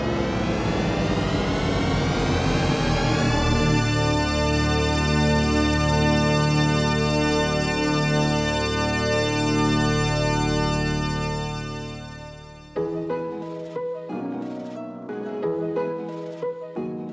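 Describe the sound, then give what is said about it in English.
The THX Deep Note audio logo: a swirling cluster of tones that glides together into a huge, sustained, resonant chord, held loud before fading out, after which a brief, choppy different sound follows. “That somewhat ominous sound you just heard is the THX audio logo known as the Deep Note.”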